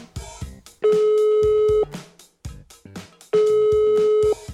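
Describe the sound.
Two long, steady telephone ringing tones of equal length sound as a call is placed, each lasting about a second, with a pause between them filled by quieter sounds.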